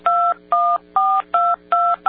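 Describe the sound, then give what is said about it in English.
Touch-tone telephone keypad dialing: six quick, evenly spaced beeps, each a clean two-pitched electronic tone, loud and crisp with brief silent gaps and no talking. “I was just demonstrating how fast I can dial.”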